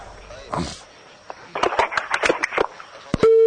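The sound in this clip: A telephone disconnection tone after a dropped call: a brief voice and a burst of clicks give way to a steady, flat pitched tone at the end.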